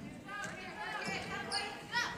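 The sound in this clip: A basketball is dribbled during a high school game between Leroy-Ostrander and Bethlehem Academy, repeated bounces sounding under a commentator's steady talk.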